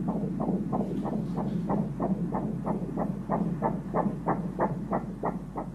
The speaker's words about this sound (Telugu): ముందు మరి baby heart beat అది చెక్ చేద్దామా?